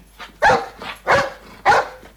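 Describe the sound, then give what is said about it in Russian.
A dog barks in three loud, sharp bursts at an even pace, with softer whimpering yelps in between. “Он освободился от собачьих объятий”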